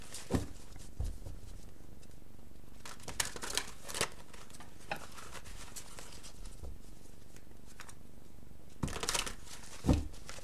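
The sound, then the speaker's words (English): Cards are drawn from a deck during a card reading, heard as a few soft papery flicks and slides scattered across a quiet background, with no talk. “I'm going to get the other cards drawn first.”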